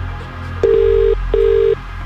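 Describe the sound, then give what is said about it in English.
A phone call rings out on the line: two steady, mid-pitched ringing tones, each about half a second long, separated by a short gap, loud and alone. “We're making this call right now. And you need to answer within 5 rings.”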